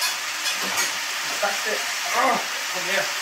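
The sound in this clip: A small whisk stirs briskly in a bowl, giving a fast, scratchy rustle that runs throughout, while people talk over the whisking.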